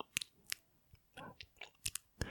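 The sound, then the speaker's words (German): Quiet wet smacking and chewing noises: a string of short clicky bites and lip smacks in an irregular rhythm, with no talk over them. “Ich habe eine Frage an dich. Und zwar, kennst du Schmatzen?”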